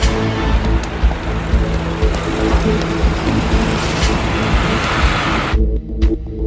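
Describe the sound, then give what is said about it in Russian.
An armored cash-in-transit car drives past on a city street. Its steady, loud rumble of engine and road noise runs almost to the end, then drops away abruptly. “Мимо проезжает инкассаторский бронированный автомобиль.”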